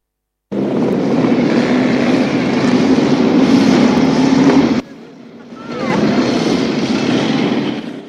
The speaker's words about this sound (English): Ben observes them as they drive past.